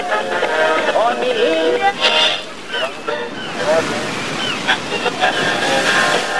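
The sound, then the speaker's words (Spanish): Waves wash around a raft being rowed on open water, a continuous, loud sloshing surf with voices heard over it. “Vamos, brother, sigue remando, brother. Vamos con buen ritmo. Déjame sentir el viento de la libertad en el rostro, brother.”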